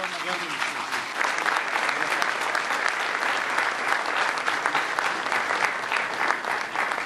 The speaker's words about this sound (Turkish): Güçlü alkışlarınızla